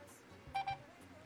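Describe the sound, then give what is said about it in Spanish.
A phone dials a number with two brief touch-tone beeps in quick succession. They are faint but clear over a quiet background. “Vamos a llamar nuevamente a ver si nos sale con señal el numerito.”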